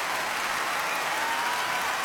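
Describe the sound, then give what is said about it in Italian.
Steady, dense applause from an audience: a continuous patter of many hands at an even level from start to finish, with no voices. “Ecco l'applauso.”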